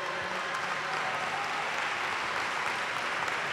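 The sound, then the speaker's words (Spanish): Crowd applause at a ceremony honoring mothers of young girl athletes: a continuous, even patter of many hands clapping, moderately loud, with no talk. “vamos a darles entre todos un aplauso muy fuerte”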